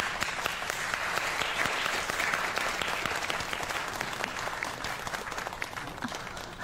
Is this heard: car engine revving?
no